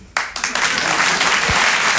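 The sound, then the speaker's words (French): Audience applause at a stand-up comedy show, breaking in suddenly after a brief quiet opening and building over a few quick surges into a steady, fairly loud round of clapping. “Votre applaudissement, il est trop bien parce qu'il veut juste dire « Elle est tellement naïve !»”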